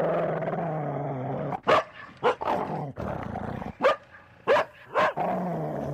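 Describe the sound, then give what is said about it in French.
A dog barks furiously in a garden, giving several sharp, loud barks spaced irregularly over a low, continuous background. “un aboiement furieux se fit entendre dans les profondeurs du jardin. Et tout de suite, le bruit de cet aboiement se rapprocha avec une extrême rapidité.”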